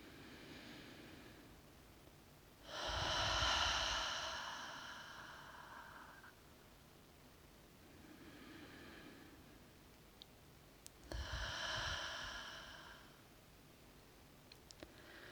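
Slow, deep breathing during a guided meditation: long airy inhales and exhales spaced several seconds apart, two fuller breaths and a few fainter ones, quiet and with no talk.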